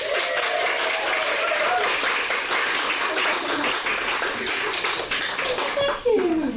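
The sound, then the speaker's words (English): Warm, sustained audience applause greeting a bestselling author at a book event, dense and even from many hands, with voices rising briefly over the clapping near the start and again at the end after a short dip. “So everyone, please give a huge hand for the incredibly talented Jill Mansell.”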